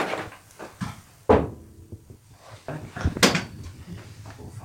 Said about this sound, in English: Would you like me to open that door? Can you open it easy?